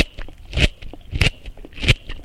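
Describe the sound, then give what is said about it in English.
A crunchy raw carrot is bitten three times with loud, sharp crunches at an even pace. Smaller crackling snaps fall between the bites. “And this is a crunchy carrot.”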